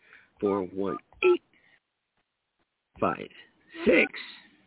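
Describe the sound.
Touch tones from a telephone keypad as a phone number is dialed. A few short electronic beeps are mixed in with people talking.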